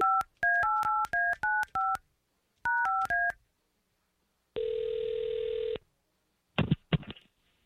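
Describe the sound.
A telephone keypad dials a call in two quick bursts of beeping touch tones. A single steady tone of about a second follows, then a brief crackling burst.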